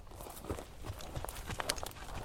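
Hoof steps of a draught mare walking between vine rows in a vineyard, where she is used to work the soil under the vines: a steady, irregular series of soft, muffled thuds and scuffs at an even walking pace, with no voices.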